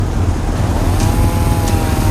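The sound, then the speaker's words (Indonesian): Two motorcycles riding off make a loud, steady engine roar, with a faint whine that climbs in pitch partway through. “Kana motor deui piur nyusul Ian jeung Rusja. Dua motor cerih udang sorana patinggal rung.”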